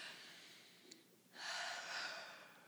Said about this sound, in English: Taking a deep, nourishing breath.